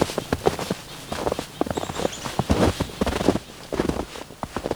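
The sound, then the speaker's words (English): Footsteps walk outdoors among calling songbirds, many irregular steps of moderate loudness falling in an uneven rhythm with no talking. “I'm gonna walk over to where they are, see what's going on.”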